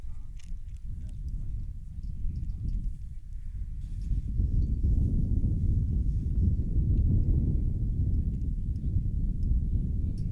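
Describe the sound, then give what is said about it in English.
Strong wind blowing at a pre-district baseball game at Port Huron: a steady, low buffeting rumble of wind on the microphone that grows louder after the first few seconds and continues to the end. “It's one of the few times I don't complain about a breeze that's blowing this hard.”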